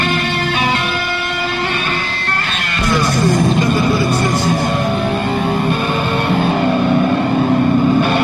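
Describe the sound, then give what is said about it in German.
A jeep pulling away from a checkpoint parking lot early in the morning: a continuous, loud engine drone that runs the whole way, its tone shifting partway through. “Der Jeep, der in Richtung Kochstraße fährt”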